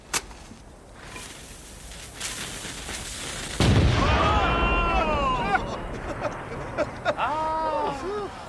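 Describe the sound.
Brass cannons fire in battle, one heavy booming blast breaking out over a rumbling crowd babble, with a few sharper reports scattered around it and ringing, wavering cries afterward.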